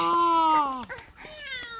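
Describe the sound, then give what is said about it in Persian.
A kitten and its mother cat meow, loud and clear with no other sounds. A long high meow slides down in pitch, followed after a short break by another strained, higher meow. “ببین رسید به یه بچه گربه، اونم مامانش.”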